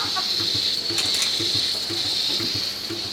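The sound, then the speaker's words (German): An automatic milking robot unfolds its arm to attach, making a steady high mechanical whine over a regular low ratcheting pulse that repeats throughout, with no voices. “Wir sind hier live und direkt am Melkautoroboter. Er klappt gerade aus und setzt gleich an.”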